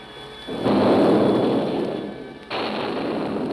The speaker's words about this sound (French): Une fusée bleue à présent. Bleue? Mais c'est le signal pour l'artillerie!